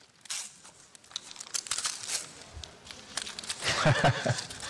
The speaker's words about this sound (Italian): Esatto, è il libro che ti invito a scartare.